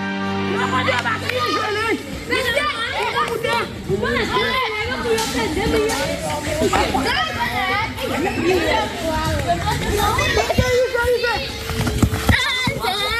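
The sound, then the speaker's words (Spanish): Boys and girls shout and chatter while playing football in Haiti, a lively, continuous tangle of overlapping children's voices. “Este es el sonido más puro del fútbol. Son niños y niñas jugando en Haití, el país más pobre de América que vuelve a un mundial después de 52 años.”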